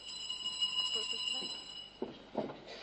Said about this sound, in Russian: Кто-то звонит.